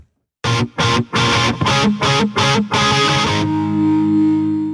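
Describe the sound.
Upbeat band music with heavily distorted electric guitar: a series of loud, punchy chord stabs separated by brief gaps, then a sustained chord that rings out and slowly decays.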